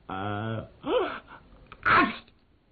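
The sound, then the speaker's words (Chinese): A voice imitating a sneeze: a drawn-out vocal buildup with a short breathy catch, then one sharp, loud burst near the end. “打了个喷嚏清醒了”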